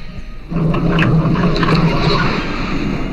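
Interior noise of a vehicle driving on the road: a steady low engine rumble and hum under hissing road and wind noise, jumping louder after a brief quieter opening, with no talking.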